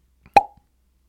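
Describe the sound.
A single sharp pop as a paper door of an advent calendar is opened, ringing briefly with a clear tone, framed by a faint tap just before and a tiny click after.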